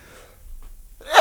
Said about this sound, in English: and with that sneeze